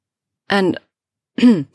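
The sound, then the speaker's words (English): A woman clears her throat in two short, voiced bursts about a second apart, each rough and throaty. Silence surrounds the bursts, with no other talk. “cleared her throat”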